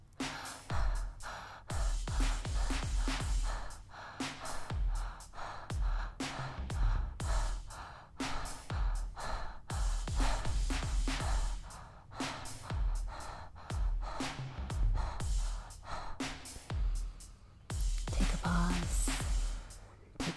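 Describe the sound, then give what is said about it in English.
Rhythmic breathing with pelvic floor contractions in a guided tantric breath exercise, many strong airy breaths in repeated bursts broken by brief pauses, loud and alone. “So the breath is going to look and sound a little like this.”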